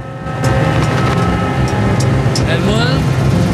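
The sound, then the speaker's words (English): A red pickup truck drives along a sun-drenched road: a loud, steady engine rumble and road roar swell in after a quiet first moment and hold evenly to the end. “man with the red and white headdress stares at the sun-drenched road ahead as he drives the red pickup.”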